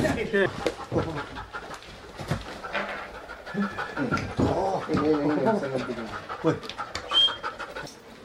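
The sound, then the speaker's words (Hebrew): A tracking dog panting and snuffling in rapid, irregular bursts, fairly loud throughout, with busy chirping and clucking-like noises mixed into the mix. “כן, זה כלב הגישוש.”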